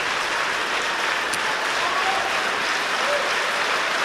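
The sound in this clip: A concert audience in Symfonisk Sal in Aarhus applauds the Aarhus orchestra, a steady, even rush of many hands clapping at moderate level without breaks.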